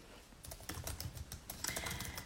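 A computer keyboard is typed on while writing a message. Quick, irregular key clicks patter softly, growing slightly busier toward the end.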